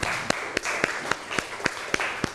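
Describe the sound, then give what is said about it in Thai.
Classmates clap for a student's good answer in a classroom, nine sharp claps in a steady, even beat. The clapping is fairly soft, with a faint hiss underneath. “เป็นคำตอบที่ดีมากปรบมือให้เพื่อนหน่อยครับ”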